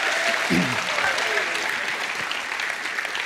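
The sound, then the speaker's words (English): An audience applauds to welcome a panel onto a stage, a dense, steady clatter of many hands clapping together with faint voices mixed in. “Would you put your hands together and welcome my panel who are going to introduce themselves?”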